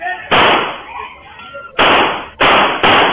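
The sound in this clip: Gunshots from a police officer firing on a man threatening officers with a broken bottle on a street: four loud, sharp cracks, one alone, then after a long gap three more in quicker, uneven succession.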